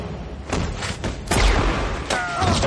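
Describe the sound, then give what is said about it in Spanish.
Gunshots in a Western film shootout, shown in slow motion: a few heavy, booming reports that land as dull thuds rather than sharp cracks, with a sustained rumble between them. “A cámara lenta, Mowry le dispara.”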